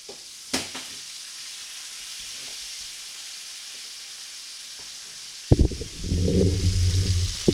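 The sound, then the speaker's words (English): Bacon frying in a pan gives a steady, quiet sizzling hiss, broken by a sharp knock early on; later a loud clatter sounds and the sizzle swells much louder and crackly. “Time to flip some bacon.”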